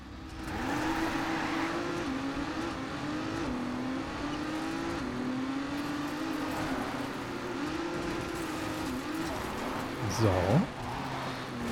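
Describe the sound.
Engine of a racing car in the video game Trackmania as it takes a curve: a steady, buzzing motor whine that wavers up and down in pitch, with a short, louder swooping burst near the end.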